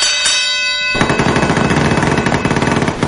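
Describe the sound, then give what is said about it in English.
A bell sound effect rings out with a bright, sustained tone and is cut off abruptly by a loud, rapid burst of machine-gun fire that runs for about two seconds. “Ah, the Sean Bell. The Sean Bell making an appearance on the show. We haven't heard that in a while.”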